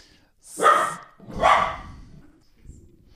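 A dog barks at a tangle of cables, giving two loud, sharp barks about a second apart, with a faint low rustle afterward.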